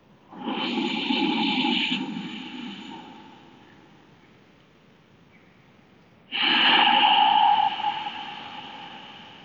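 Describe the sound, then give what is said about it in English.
Two long breaths through the nose with the mouth held open, each a loud, hissing rush of air lasting a couple of seconds, with a quieter trailing stretch between them. “There's no air passing through my mouth. My mouth is open, but it's all passing through my nose.”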